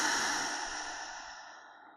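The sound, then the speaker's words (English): A long, soft exhale during a guided breathing exercise, a quiet breathy rush of air that starts strongest and gradually fades away over about two seconds. “Let's take a big deep breath into that. And a big exhale.”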